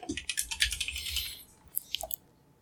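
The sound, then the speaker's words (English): Typing on a computer keyboard: a rapid run of many light clicking keystrokes, then a few scattered taps before it stops, fairly faint and with no talking. “All right, I'm just going to type it in.”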